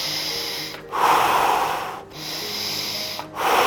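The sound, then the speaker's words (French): Deep, slow breathing, heard alone: a few long, breathy, noisy breaths that swell and fade in a steady rhythm, some louder than others. “Ensuite, il faut respirer profondément.”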